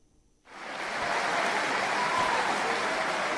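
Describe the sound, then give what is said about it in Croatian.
Applause at the 43rd international champions' handball tournament in Doboj's sports stadium: after a brief near-silence, a broad roar of clapping swells in quickly and then holds steady and loud. “Aplauzi na stadionu sportskih igara u Doboju nisu se još stišali”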